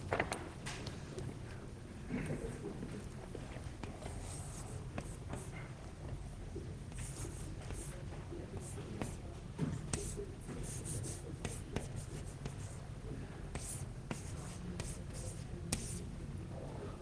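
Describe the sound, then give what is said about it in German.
Chalk or pen writing an equation on a board during a lecture gives faint, continuous scratching with many short strokes and taps, steady for about seventeen seconds. “Also diese Gleichung 359, ich schreibe sie nochmal hin.”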